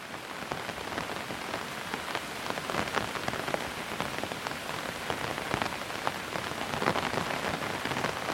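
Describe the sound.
Steady rain falls on a surface as a soft, continuous patter of many fine drops with occasional sharper taps. It is fairly quiet and even throughout, with no voices.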